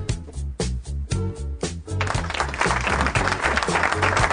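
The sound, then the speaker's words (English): Applause breaks out after a short run of rhythmic beats, then continues as dense, steady clapping of many hands to the end. “I get applause.”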